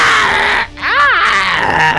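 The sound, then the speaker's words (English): A voice imitates a scream of pain from a creature struck by a sword in a tabletop role-playing game. It is a single brief cry that arcs up and back down in pitch, set against steady background sound. “screaming in pain from the attack.”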